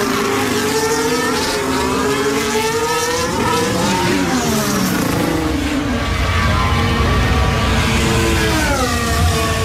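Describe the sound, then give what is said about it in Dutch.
Formula 1 race cars at the 2023 US Grand Prix, including Lewis Hamilton's Mercedes, give a loud, continuous high-revving engine scream whose pitch shifts up and down as the cars accelerate and lift. “Nou, voorlopig heeft hij het zwarte monster achter zich aan. Dat is Lewis Hamilton zijn Mercedes.”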